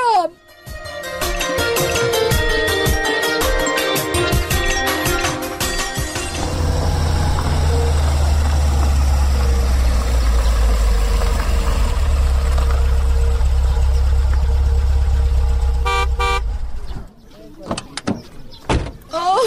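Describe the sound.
A car engine runs with a low, steady rumble for about ten seconds. Tonal sounds come before it, and a few sharp clicks follow as it ends.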